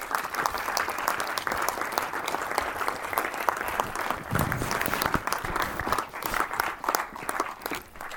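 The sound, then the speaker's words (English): Sustained audience applause welcoming filmmaker Gareth Maxwell Roberts, writer, director and producer of the 3D film Demotition, steady, dense clapping that carries on without a break. “Please have a welcome, Gareth Maxwell Roberts.”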